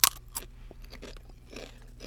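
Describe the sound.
Chips crunch while being eaten during a tasting: a couple of sharp bites at the start, then quieter, irregular chewing and crunching, faint and without talk.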